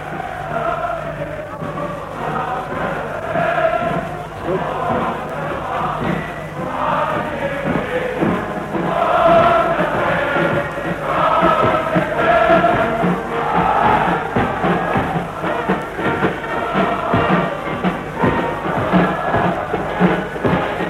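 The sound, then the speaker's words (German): A large crowd cheers outdoors on the Day of Potsdam in 1933, heard through an open window with music drifting in. It makes a continuous, swelling roar of many voices, steady and dense from start to finish. “Wir stehen am offenen Fenster. Sie können jetzt besonders gut hören, wie die Menge jubelt. Wir lassen Ihnen noch einen Augenblick die Musik von draußen ins Fenster hereinschallen.”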